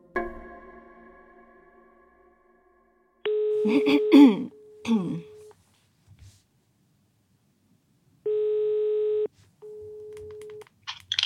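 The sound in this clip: A telephone ringback tone heard while placing a call: a steady, low electronic tone comes in a few separate bursts with gaps of silence between them, mixed with some brief rustling and a short throat-clearing sound.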